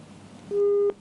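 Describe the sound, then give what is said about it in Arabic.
Telephone busy signal after a call disconnects: a single loud, steady electronic tone that starts midway and holds for about half a second before cutting off, over a faint background. “انقطع الاتصال مع حمود”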